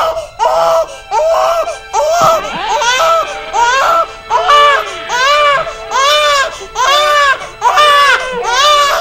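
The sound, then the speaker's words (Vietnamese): Several newborn babies wail together as an audiobook sound effect, a loud run of many crying bursts, each arching up and down in pitch, repeating steadily with short gaps for about nine seconds. “Lúc này chợt có tiếng khóc của trẻ sơ sinh vẫn đến.”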